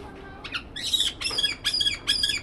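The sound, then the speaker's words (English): Harsh squawks from a black-headed caique, a small parrot with green wings, a white belly and a black and yellow head, kept in a large zoo cage. A quick run of loud, shrill calls comes in bursts, with short gaps between. “He's a small parrot, not as big as a pigeon, with green wings, a white belly, and a black and yellow head.”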